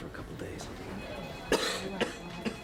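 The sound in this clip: Dry coughing from a man with headache, exhaustion and a moderate fever: three short, faint coughs in quick succession over a low, steady background murmur.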